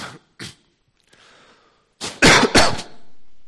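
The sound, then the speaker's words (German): A sudden fit of coughing from a person: two short, quiet coughs, a pause with faint breath, then a loud cluster of harsh, raspy coughs. “du musst mich immer stumm stellen, wenn ich ganz unvermittelt huste.”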